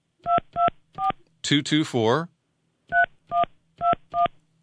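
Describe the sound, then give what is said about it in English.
A telephone number being dialed on a keypad: a row of short, evenly spaced electronic touch-tone beeps, briefly interrupted midway by a voice-like sound, then more beeps in the same steady rhythm. “And so let's take him up on that. I'm dialing”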